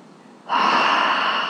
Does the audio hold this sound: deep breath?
yes